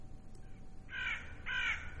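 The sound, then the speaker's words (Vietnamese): A crow caws twice, harsh and rasping, as it flies up from the far end of a cemetery. The two drawn-out calls sound over a low background rumble. “là một con quạ bay vụt lên từ cuối nghĩa địa rồi kêu lên những tiếng nghe ghê rợn”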